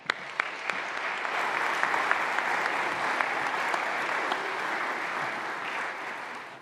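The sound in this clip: An audience applauds to welcome a guest preacher, with steady, dense clapping from many hands that stays even throughout.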